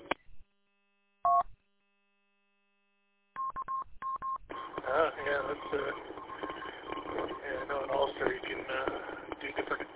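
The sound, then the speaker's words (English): Repeater courtesy tone for remote audio: a few short electronic beeps, then a voice begins talking over the radio channel. “If you're local, it's just a single beat. If you're remote, it's got a little double beat.”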